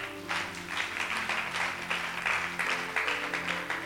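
Clapping from an audience at a Christian retreat, giving applause to God, heard as repeated bursts of many hands over sustained musical tones.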